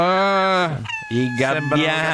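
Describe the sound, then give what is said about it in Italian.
Seagulls calling: a loud, drawn-out harmonic cry held steady at first, then a brief break and a few more wailing calls at shifting pitch, heard alone. “I gabbiani.”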